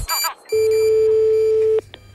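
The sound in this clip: A telephone tone from an outgoing call on a radio phone-in: one steady, mid-pitched tone holds for just over a second, then a brief blip follows, with a short burst of other sound before the tone.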